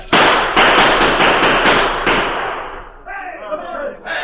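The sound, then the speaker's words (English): Gunfire in a Western shootout at a gulch: a loud volley of many overlapping shots forms a dense, crackling burst for about three seconds, then gives way to fainter, scattered sounds. “Open fire. Chase them back into the gulch.”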